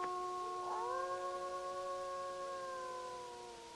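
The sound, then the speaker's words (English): A wolf howls in one long, sustained tone. The pitch slides upward near the start, then holds steady and fades away at the end. “there's a wolf howling!”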